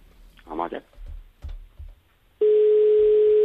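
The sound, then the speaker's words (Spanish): Ringing tone of an outgoing telephone call, a steady, continuous mid-pitched electronic tone that starts abruptly after a few seconds of talk and holds evenly to the end. “Uy, estamos llamando”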